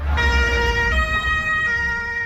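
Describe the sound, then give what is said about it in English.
Emergency vehicle sirens wail as services rush to a park after a vehicle drove into a crowd at a city Pride parade; the loud, steady siren tones shift pitch a couple of times over a low rumble of traffic. “Sirens wail as emergency services rush to Berlin's Tiergarten Park.”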